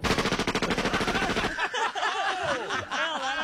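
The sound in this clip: An Uzi submachine gun rattles off a rapid, evenly spaced burst of shots for about a second and a half, followed by laughing voices.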